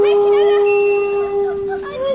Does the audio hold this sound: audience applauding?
no